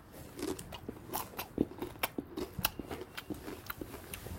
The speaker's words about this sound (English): Ah, beautiful Doritos.